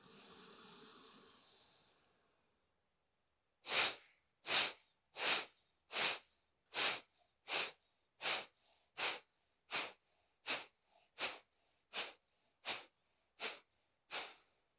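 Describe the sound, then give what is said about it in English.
Breathing: one long, soft breath comes first, then after a pause fifteen short, forceful breaths follow in a steady, even rhythm, each a sharp rushing puff. “Big breath in.”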